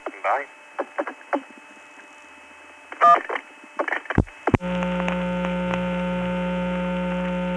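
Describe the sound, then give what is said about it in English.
A telephone company loop-around test line, reached on a metered message-unit call: brief tones and clicks give way to a steady, loud buzzing tone with a low hum that holds unbroken to the end. “By the way, the number I had her call was a telephone company loop around.”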